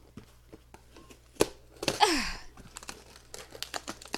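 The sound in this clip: The box of a ham radio is torn open: a sharp thump, then a loud rip, followed by many small crinkles and rustles of the packaging.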